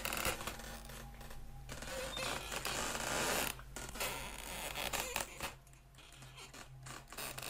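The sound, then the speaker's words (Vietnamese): A window creaks slowly open with a faint, drawn-out scratchy grinding that continues with uneven texture for several seconds. “Cánh cửa sổ ở bên kia không có gió mà từ từ mở ra.”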